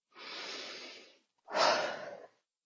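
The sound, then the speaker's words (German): Forceful breathing, with exhalation stronger than inhalation: two long, breathy rushes of air separated by a short pause, the second starting harder and louder than the first, with no talking. “und atme genauso, auch kraftvoll, gerne, wenn ich es brauche. Auch ein bisschen mehr aus als einatmen.”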